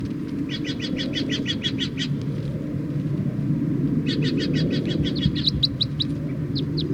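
Wild birds chirping in two bursts of rapid, high, repeated notes, the second ending in a few sharper whistled calls, all over a steady low rumble.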